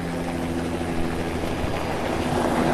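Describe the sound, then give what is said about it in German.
A helicopter passes over a quake-stricken mountain village in Nepal's Sindhupalchok district, its rotor and engine forming a steady, broad rushing roar that holds at an even level, with no voices heard. “Hin und wieder taucht ein Hubschrauber am Himmel auf, der in Sekundenschnelle auch schon wieder weg ist.”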